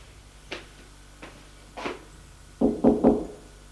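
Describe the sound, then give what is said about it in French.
Knocking on a doctor's office door in a hospital: a few soft, spaced taps, then three quick, louder raps in a row. “Mais, avant, il veut frapper au bureau du médecin.”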